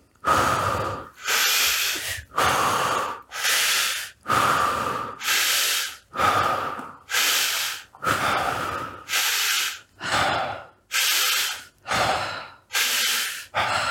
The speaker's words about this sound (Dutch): inademen en nu even heel diep door de mond. Een paar keer.